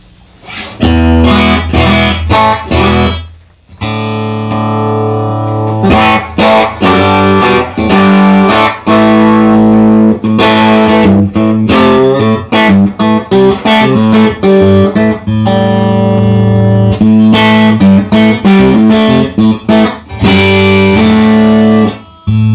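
An electric guitar plays through a single-channel amplifier on its basic first tone with the high cut engaged. Loud, distorted chords ring out in rhythmic bursts, with a brief gap early on, and no voices.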